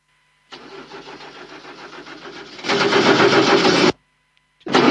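A car engine cranks on a faulty starter with a worn Bendix drive. The steady, loud churning grows harsher midway, cuts off abruptly without catching, then starts again briefly.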